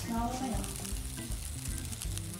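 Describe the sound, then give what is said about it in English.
Butter sizzles and crackles in a hot pan, waiting for lean steak medallions. The frying hiss is steady while a man talks over it. “Next move will be... more butter. More butter. And the reason you add some butter is because this is so lean, this meat, that if you just throw it in there, it's going to scorch.”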